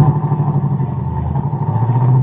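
A car engine runs as the car moves off, giving a steady low rumble with a slight clattering texture that holds level for the whole short stretch, with no voices over it.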